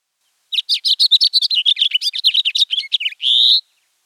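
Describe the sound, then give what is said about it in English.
A house finch sings its warble alone: a quick, lively run of many bright, varied chirping notes, too fast to count, ending in one longer buzzy note. “A warble is notes too fast to count and unique, such as this house finch,”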